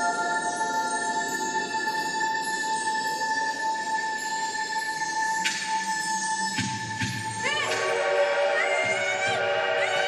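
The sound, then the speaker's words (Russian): A passing train sounds steady, sustained horn tones that layer together, with a new, higher tone joining partway and a deeper rumbling, shifting blend of tones toward the end. “Становится светлее, люди выбегают вперед к зрителям и смотрят в сторону зала, как бы встречая проходящий поезд.”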